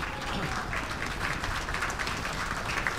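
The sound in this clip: Applause from the audience at a live music show for the opening band, an even, dense patter of clapping that holds steady throughout.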